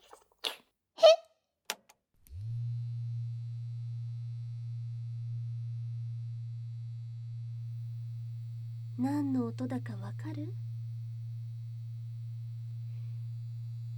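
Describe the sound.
A small pink vibrating device buzzes with a steady low hum that starts after a couple of seconds and runs unbroken to the end, while a voice speaks briefly at the start and again partway through.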